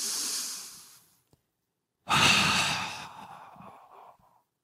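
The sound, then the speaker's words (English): Two deep human breaths, each a long, loud, airy rush that slowly tapers off, separated by a short silent pause. “I take 10 deep breaths like this.”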